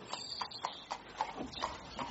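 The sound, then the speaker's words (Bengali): Horse hooves clip-clopping as a horse-drawn carriage arrives and stops, a few faint, evenly spaced clops over a short moment. “একখানা ঘোড়ার গাড়ি এসে থামল।”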